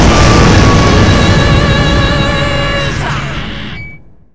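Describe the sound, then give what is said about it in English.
A monster explodes in a Power Rangers battle, torn apart by a blast and its own self-destruct. A loud, dense roar with ringing tonal layers holds steady, then fades away over about four seconds. “The monster being torn to pieces by the combined strength of the blast and its self-destruct protocol activates as it explodes.”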